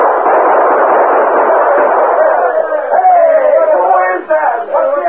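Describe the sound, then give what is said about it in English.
Gunfire in a radio western drama: a dense, continuous clatter of shots with a narrow, thin old-radio tone, with voices shouting over it toward the end. “All right, Tonto, open fire. Chase him back into the gulch.”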